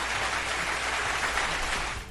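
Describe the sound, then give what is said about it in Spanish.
Applause for songs on a radio show: a steady, dense wash of clapping that holds evenly and tapers off at the very end. “Un aplauso, por favor, para esas canciones.”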